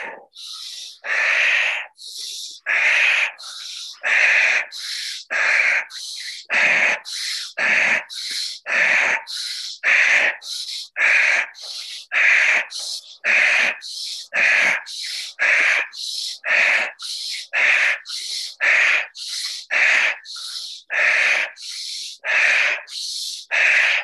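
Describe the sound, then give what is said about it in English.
Deep rhythmic breathing during a guided breathing exercise, with inhales through the nose and exhales through the mouth in a round of thirty breaths. Many loud, evenly paced breaths follow one another at a quick steady rhythm, with no talking. “So we're going to do in through the nose and out through the mouth, and hold it on the 30th and see what happens.”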